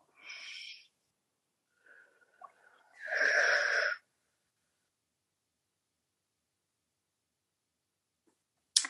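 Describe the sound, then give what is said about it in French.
A deep breath in and out: two soft, airy breathy sounds, the first short and the second longer and louder, separated by near silence. “Puis vous allez prendre une grande inspiration et expiration.”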